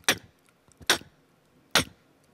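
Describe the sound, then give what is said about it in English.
A beatboxed click snare made with the mouth: three sharp, crisp clicks spaced evenly apart, each short and bright, heard alone against near silence. “that's basically like the part of click snare. So like click snare sounds like”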